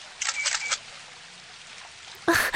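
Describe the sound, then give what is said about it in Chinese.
Camera shutter clicks as a photo is taken: a quick burst of crisp mechanical clicks, a quiet pause, then another sharp burst. “打扰一下，麻烦你能帮我们拍一张照片吗？”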